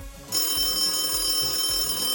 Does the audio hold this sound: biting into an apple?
no